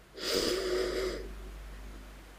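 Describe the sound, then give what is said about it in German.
A single deep breath drawn in through the nose, a slightly wheezy, whistling hiss lasting about a second that fades into quiet. “hol nochmal tief Luft, atme mal wirklich durch die Nase ein und zieh die Luft wirklich mal in deinen Bauch.”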